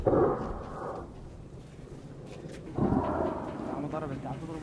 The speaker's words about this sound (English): we watch as regime helicopters circle closer toward the village, firing rockets in the hills just beyond. It's the closest the regime forces have ever gotten to Kirkania. Fired twice? Yeah. Yep.